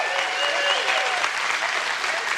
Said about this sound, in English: can we just take a second and just clap and cheer and whistle?